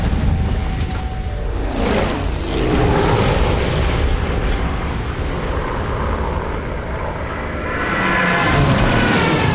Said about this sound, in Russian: Повсюду раздаются взрывы. Идет массированная бомбежка.